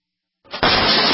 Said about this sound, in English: That's the sound of your door being kicked in by an intruder with a single kick.